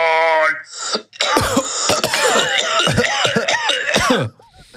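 A man coughs in a rapid run of harsh, rasping bursts with throat-clearing sounds, preceded by a brief tonal vocal sound, the coughing loud and unbroken before it drops away near the end.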